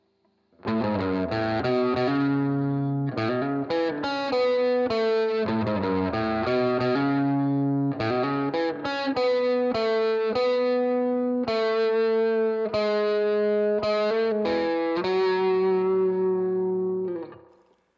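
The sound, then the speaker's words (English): A distorted electric guitar plays a solo through a Fender amp rig: a melodic run of sustained single notes with slides and bends, heard alone with no other instruments for about sixteen seconds before fading. “We'll kick this in for the solo, and then we'll leave it alone for the rest of the song. Let's give a listen to our solo tone.”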